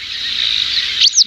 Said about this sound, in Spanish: Se llama Aguilucho Cenizo.